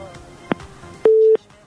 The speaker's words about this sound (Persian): تماسشان فکر میکنم که قطع شد